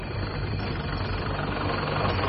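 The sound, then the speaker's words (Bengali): Steady low engine rumble from lorries loaded with vegetables, a continuous idling drone with no clear rev or rise, fairly faint and heard alone. “গর্জন করে lorry দুটো ছাড়ল।”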